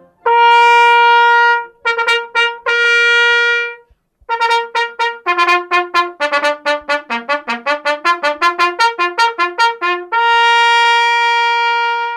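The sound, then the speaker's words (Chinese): A solo trumpet plays clear, bright notes: a few long sustained tones, then a quick run of short staccato notes moving up and down, ending on another long held note. “刚刚大家听到的就是小号，”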